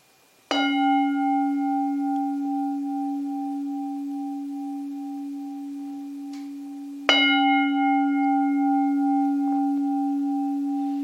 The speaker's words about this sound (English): So, I'm going to ring the bell 3 times to end the meditation for tonight.